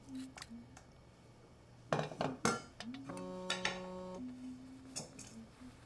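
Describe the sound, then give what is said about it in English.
Faint metallic clinks and taps from a sifter as an ingredient is sifted into a pot on the stove. Several sharp rattling bursts mix with quieter scrapes and a brief ringing tone. “adds an ingredient from a sifter into a pot on the stove”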